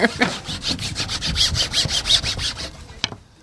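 A wooden spoon rubs down a woodblock print after steamroller printing. It makes many quick, rhythmic scraping strokes of fairly even loudness that stop near the end, leaving one last scrape.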